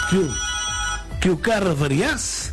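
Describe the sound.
A telephone rings as a caller comes through to a radio call-in show, a steady tonal ring sounding beneath voices that talk over it.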